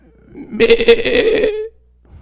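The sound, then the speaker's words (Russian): A human voice imitates a sheep bleating in pain: one loud, wavering, nasal bleat lasting about a second, heard alone with no other sound around it. “Овечка заплакала. Ей просто стало больно.”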